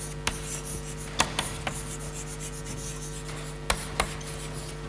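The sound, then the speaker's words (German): Writing on a wall during a lecture produces soft, scratchy rubbing strokes that run continuously, broken by a few sharp taps as the writing implement meets the surface. “deshalb schreibe ich es auf der Wand”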